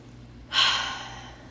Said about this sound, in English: let's just end off with a good deep breath